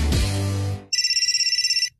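A telephone rings with an electronic trilling ringtone: one burst of rapid, evenly spaced high pulses lasting about a second, right after a loud musical sting cuts off.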